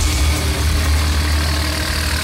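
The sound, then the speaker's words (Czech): Loud, even engine drone of a loader driving across the grounds of the narrow-gauge railway station in Kamenice nad Lipou, carrying heavy oak railway sleepers on its forks. The deep, steady rumble continues without a break. “Prostoru nádraží Uskokolejky v Kamenici nad Lipou jede nakladač. Na vidlích má těžké dubové pražce.”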